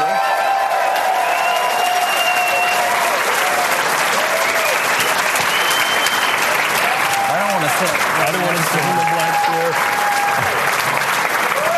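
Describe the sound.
A studio audience gives loud, sustained applause and some cheering as comedians walk on stage. The clapping stays dense and even for nearly twelve seconds, with a few voices calling out over it.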